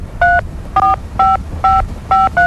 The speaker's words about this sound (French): Oui, justement, je suis en train de composer le numéro.